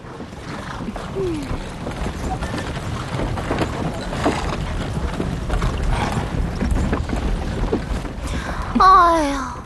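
A horse-drawn carriage travels with a marching army along a main road, giving a steady, noisy rumble and clatter throughout, with a brief high, wavering call near the end.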